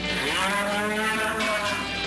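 Cattle mooing on a ranch near Crawford, Oklahoma: one long, loud, unbroken moo with a rich, droning, harmonic tone, heard alone.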